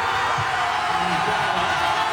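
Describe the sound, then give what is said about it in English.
Hundreds of Ghana football fans cheer and celebrate after the Black Stars' scoreless draw with England at Boston Stadium, a dense, steady roar of crowd noise with no clear pauses. “That's the sound of hundreds of Ghana fans celebrating as the Black Stars secured a scoreless draw with England”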